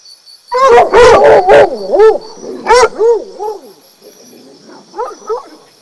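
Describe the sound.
Fox call: a long run of wavering, yelping howls whose pitch loops up and down. The calls are loud at first and grow fainter toward the end, with a few sharp clicks near the start.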